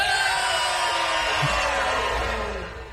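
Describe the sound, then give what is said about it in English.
A crowd hollers loudly all together on a count of three, a dense, sustained wash of yelling and whooping voices that carries on with little variation before easing off near the end. “On the count of three, we're going to holler real loud, and then we're going to take a swaller of our drink, all right?”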